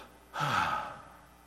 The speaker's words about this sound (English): Everybody just take a deep breath and just go,